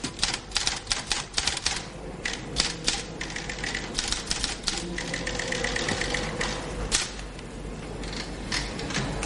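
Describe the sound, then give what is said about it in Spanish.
Rapid typewriter clatter as an official types up a document, the carriage returned to new lines several times between bursts of keystrokes. It forms a steady, dense rattle with no speech. “Cambia de línea varias veces y continúa escribiendo.”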